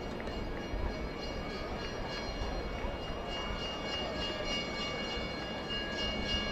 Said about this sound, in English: Yes, that is a train that you hear in the background passing by on the first base side of the ballpark.